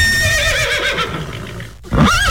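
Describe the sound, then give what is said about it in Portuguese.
A horse on a farm neighs while people chase it, a loud, shrill whinny with quavering pitch that breaks off briefly before another high call. “o pessoal da Fazenda Três Maria tá correndo atrás do cavalo, pai.”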